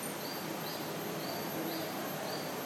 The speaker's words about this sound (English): Sound of the nice insects, the cicadas, the birds.